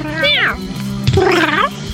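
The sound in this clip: People imitate a cat meowing. Two drawn-out human meows sound in turn, each bending up and then down in pitch, the second one longer than the first.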